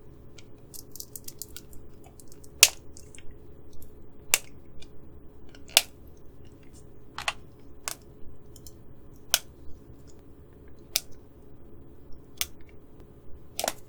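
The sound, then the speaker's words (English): Crisp plastic clicks and snaps from prying open a child-lock package, like a medicine container, with a plastic seal around the end. About eight sharp, separate clicks come at an irregular pace over a faint background hiss. “Hard to get open, which is good. This plastic seal around the end. There we go. Got it finally.”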